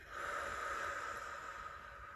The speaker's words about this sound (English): Inhale. Breathe in. Hold it. And breathe out.